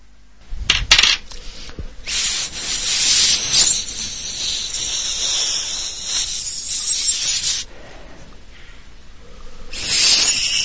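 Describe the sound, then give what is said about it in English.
Rasping sandpaper strokes as a small homemade flute is finished, a steady hissy scrape lasting several seconds, then a quieter lull before a final burst of sanding. “This episode, he made a flute. You can hear it. You can hear him finishing it off.”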